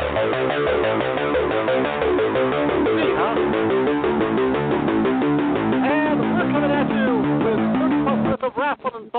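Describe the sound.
An intro song plays loudly and steadily with a pulsing beat and sung vocals, then breaks into a few choppy bursts near the end.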